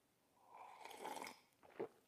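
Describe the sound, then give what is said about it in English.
A sip of coffee is slurped once, a faint, airy draw lasting under a second, followed by a few small mouth sounds. “Oh, it's real. Let me slurp it to make sure you know.”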